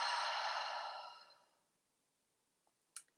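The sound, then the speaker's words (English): A long, voiced breath out during a yoga breathing exercise, loud at first and fading away over about a second and a half, followed by near silence and two faint clicks. “Another breath in, anadlu fewn, inhale. Anadlu allan, exhale.”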